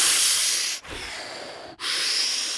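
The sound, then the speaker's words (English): A voice imitating forced breaths pushed through constricted lips: three long, loud hissing rushes of air separated by two brief gaps. “what I've learned is constriction in the lips and trying to take the breath in or trying to let the breath go.”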